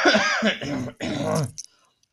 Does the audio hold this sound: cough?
yes

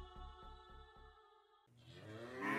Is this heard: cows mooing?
yes

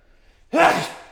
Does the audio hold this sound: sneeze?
yes

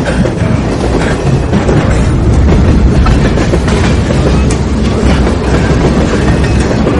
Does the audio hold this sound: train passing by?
yes

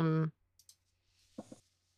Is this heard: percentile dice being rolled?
yes

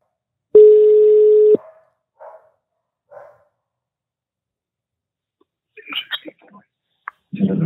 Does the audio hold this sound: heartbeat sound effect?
no

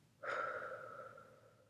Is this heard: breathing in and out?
yes

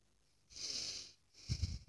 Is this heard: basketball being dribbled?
no

